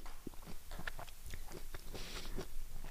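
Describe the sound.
Soft, wet chewing of two pieces of food at once, with quiet crunches and mouth smacks repeating steadily throughout and no talking.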